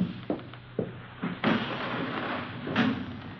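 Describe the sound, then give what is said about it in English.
A window is opened to let in fresh air, with a few dull knocks and thuds followed by two longer scraping, sliding bursts. “Let me open a window for you, sir. A little fresh air in here.”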